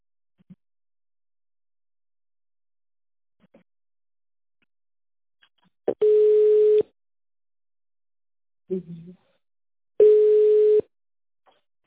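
Telephone ringback tone while a call is transferred: two steady, mid-pitched tones, each lasting under a second and spaced about four seconds apart, with faint clicks and a short noisy burst in the quiet between them.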